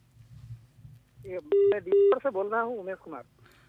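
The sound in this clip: Two short, identical telephone tones as a caller's line connects to a radio call-in show, followed by a voice speaking.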